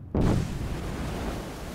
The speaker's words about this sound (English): The creation of a new island. This is Kawachi in the Solomon Islands. One of the most active undersea volcanoes in the world.